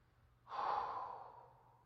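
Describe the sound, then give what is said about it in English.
A single long, faint exhaled breath that swells quickly into a soft, airy rush and then tapers off gradually, heard alone with no talk. “breathing, exhaling,”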